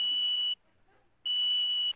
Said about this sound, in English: Oh, my lunch is ready. I'm cooking a polarized duck. You see, it beeps when...